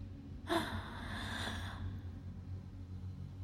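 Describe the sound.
A single quick, sharp inhale rises out of a quiet low hum, lasts about a second, then fades back into the faint background.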